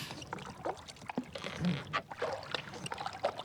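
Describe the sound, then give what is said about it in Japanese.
A boat moving on water in fog: continuous watery splashing and rippling at moderate loudness, with small irregular swells of movement and no voices. “船？”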